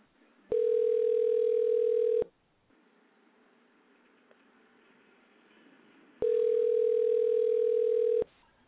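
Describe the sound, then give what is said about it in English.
Telephone tones heard while dialing a number: two long, steady, even-pitched electronic tones, each a little under two seconds, separated by a few seconds of near silence, with no talk. “Let me dial his number right quick and see if he answers.”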